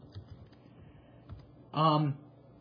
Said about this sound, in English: I gotta just type this up here. And I can't type today.